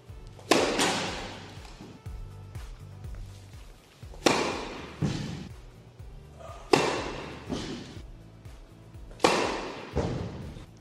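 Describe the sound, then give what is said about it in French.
Flat first tennis serve struck down the T: a few sharp, loud racket-on-ball impacts, each with a short decaying tail, spaced several seconds apart over a low, steady tonal background. “Première balle à plat au thé.”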